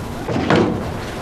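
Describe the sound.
A door closes with a brief, muffled push and thud. The sound is short and soft, with no talk over it.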